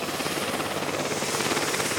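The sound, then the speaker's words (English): A medical transport helicopter flies overhead, its rotor chopping in a fast, even, continuous beat, fairly loud and without voices. “If their physician determines they need more intense treatment, they arrange for a helicopter to pick them up.”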